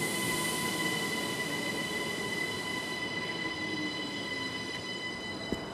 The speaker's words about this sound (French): Juste le bruit des rails à l'ombre d'un très grand jardin privé.